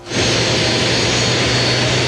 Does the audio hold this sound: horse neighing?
no